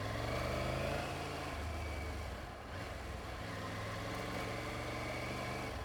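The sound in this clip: A car engine droning steadily while driving uphill, a dense, continuous rumble with a low hum that barely changes in loudness, briefly dipping once midway.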